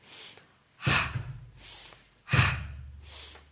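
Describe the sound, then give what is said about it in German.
Slow, deliberate breathing, in through the nose and out through the mouth, with about five breaths. Two strong, airy breaths alternate with softer ones in an even rhythm, with no talking. “Und jetzt beginne ich einatmen durch die Nase, ausatmen durch den Mund.”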